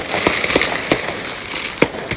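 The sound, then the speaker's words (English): Fireworks go off inside a burning RV in East LA: several sharp bangs at irregular intervals over a continuous crackling roar of fire. “Oh, man. That's why it's on fire. RV has fireworks.”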